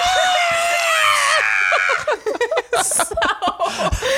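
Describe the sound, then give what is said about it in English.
A person's voice imitates a woman screaming with a long, loud, high and wavering shriek, then breaks into several short bursts of chuckling laughter. “So she screams.”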